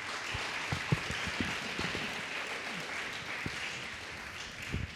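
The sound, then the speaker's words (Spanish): A church audience applauds in praise of the Lord, a faint, even wash of clapping that continues throughout, with a few sharper claps standing out. “¿Cuántos dicen gloria a Cristo Jesús? Denle un fuerte aplauso al Señor.”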